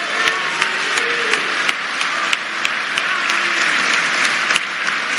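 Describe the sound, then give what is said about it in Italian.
Applause from a crowd: dense, steady clapping with a few sharper, louder individual claps standing out at irregular moments throughout. “a loro va l'applauso da Roma.”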